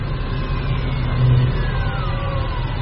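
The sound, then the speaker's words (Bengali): A car engine runs steadily as the car arrives near a headquarters building at night, with a rumbling mid-pitched drone that swells briefly in the middle and a faint whine that slowly falls in pitch. “Syndicate হেডকোয়ার্টারের কাছে এসে গাড়িটা থামল।”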